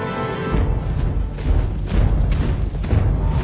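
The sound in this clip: Deep, booming drums from a film scene of marching orcs, heavy low thuds pounding out a steady, driving pulse that stays dense and loud throughout, with no voices.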